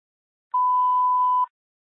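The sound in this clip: A single steady electronic beep on a radio dispatch channel, mid-high in pitch and lasting just under a second, sounds alone with silence before and after.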